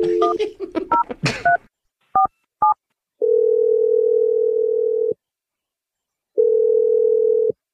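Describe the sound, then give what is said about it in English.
Touch-tone telephone keypad dialing a number: a rapid run of short beeps, then two separate beeps, followed by two long steady tones with a pause between them. “Dial the number. Here we go.”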